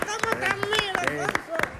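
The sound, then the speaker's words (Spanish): Flamenco-style palmas: a palmero claps sharp, crisp beats in a lively rhythm while people talk over the clapping. “Yo estoy de palmero aquí, como sí, puedes ver. Es verdad, como aplaude, ¿eh? Aplaude con nota. Y luego solo con dos manos.”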